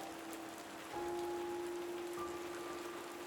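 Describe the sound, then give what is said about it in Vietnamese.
Heavy pouring rain falls in a steady, dense wash that grows slightly louder after the first second and stays even, with a faint steady hum running underneath. “Trận mưa như trút kéo dài mấy ngày liền.”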